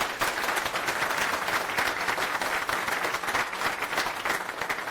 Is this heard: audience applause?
yes